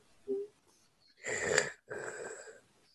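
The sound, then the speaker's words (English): A flat-nosed dog wheezes as it breathes through its mouth, giving two raspy, hissing breaths in quick succession after a brief faint sniff, with near silence in between. “She has to breathe through her mouth because like the pugs, like their noses are so smushed out that they can't breathe right.”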